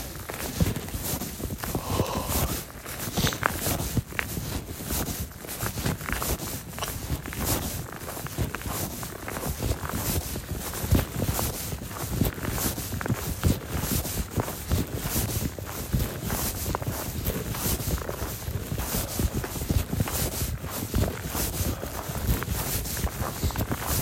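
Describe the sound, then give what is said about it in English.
Footsteps of a person walking outdoors crunch in a steady, continuous rhythm. Loud wind rush on the microphone partly masks the steps throughout. “I don't know where I'm walking. I don't know why I'm walking. Just need a place to talk.”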